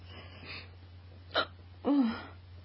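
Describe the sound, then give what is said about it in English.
A hiccup from someone with a bout of hiccups: a brief sharp burst followed by a short voiced catch, fairly loud against a steady low hum. “What's your favorite kind of hiccup? I don't know. They get so loud sometimes.”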